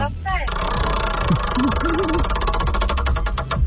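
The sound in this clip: Rapid ticking of a prize wheel spun in a game-show contest, with clicks that gradually spread out as the wheel slows near the end, heard under a voice.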